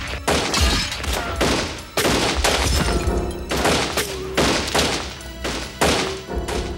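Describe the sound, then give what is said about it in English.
Gunfire during a robbery at a small auto license tag agency store, many rapid loud shots ricocheting, sharp booming bursts one after another in a dense fusillade, with no talk. “Twenty rounds ricocheted through the small store in a matter of seconds.”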